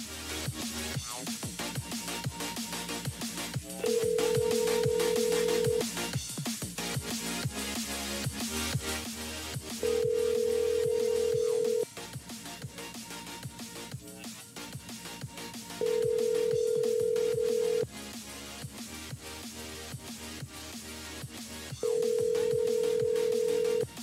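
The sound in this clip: Ringback tones of a phone call being dialed: four long, steady mid-pitched tones, evenly spaced several seconds apart, sound over a continuous busy background.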